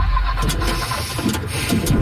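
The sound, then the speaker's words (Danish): Car engine noise for a leased car breaking down on the Motorring 3 motorway: a steady, low, rumbling drone that holds at an even level with no clear change throughout. “Lad os sige, at din leasingbil bryder sammen midt på Motorring 3.”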